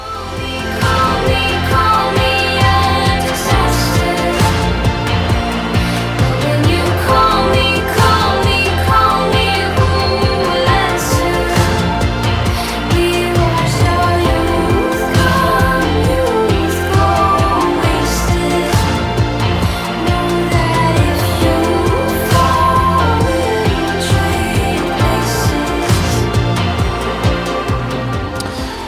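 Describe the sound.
A song from a film soundtrack plays for about half a minute, dense and rhythmic with a steady beat and layered instruments, holding an even loudness with a slight dip partway through.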